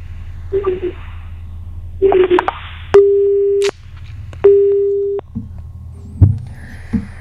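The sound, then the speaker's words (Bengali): A telephone busy tone after a call disconnects: two steady, clear beeps of equal pitch, each lasting under a second, preceded by brief muffled noises. “না, ফোনটা কেটে গেল, ফোনটা disconnect হয়ে গেল।”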